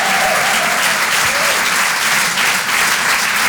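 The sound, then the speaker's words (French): Dense, steady applause from a comedy club audience, with many hands clapping continuously at an even, fairly loud level for the whole stretch and no voices standing out. “Faites du bruit pour Tristan Lucas”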